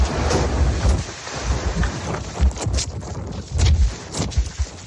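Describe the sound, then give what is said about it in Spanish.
Roaring wind from a thermal downburst in Torrevieja, with gusts over 90 km/h, batters the microphone in uneven surges and low booming thumps that rise and fall throughout. “Y el sur de Alicante fue el escenario de varios reventones térmicos durante la tarde. Localidades del litoral entre Santa Pola y Guardamar del Segura sufrieron rachas de viento de más de 90 kilómetros por hora. Así sonaba el que azotó Torrevieja.”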